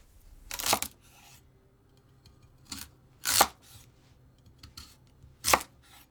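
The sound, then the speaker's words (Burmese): A knife slicing a daikon radish into 2 cm thick rings, a few crisp cuts separated by quiet pauses and faint handling noise. “ပထမဆုံးမုံလာဥကို2 cm အထူးအကွင်းလိုက်လှီးပါ”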